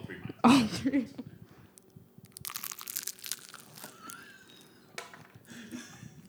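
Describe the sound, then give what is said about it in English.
Crisp crunch of a woman biting into a spring roll: one loud crackling bite, then softer scattered crunches of chewing that fade in and out. “That, my friends, is what it sounds like when a woman eats a spring roll.”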